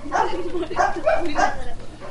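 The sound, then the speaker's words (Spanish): A dog barks indoors during a home recording, giving a few evenly spaced, loud barks over steady background noise. “Tenemos desde luego que echar al perro porque ladra mucho.”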